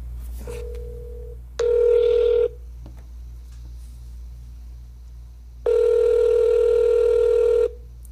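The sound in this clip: Telephone call tones as a number is rung up: a short faint steady beep, then two longer, louder electronic tones separated by a pause, over a constant low hum.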